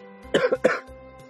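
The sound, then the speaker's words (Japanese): A person coughs in a quick, harsh double burst, throaty and loud, with no talk. “自分 で風邪ひかんように咳コンコンしてるけどね。 その咳は大丈夫なんです？”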